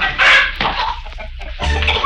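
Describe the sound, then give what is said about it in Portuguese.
Chickens cluck noisily in a henhouse, a dense, loud run of many overlapping clucks and squawks with no voices, busiest at the start and again near the end. “Quando Lili e Dentinho falavam com o granjeiro, escutaram um grande barulho vindo do galpão das galinhas.”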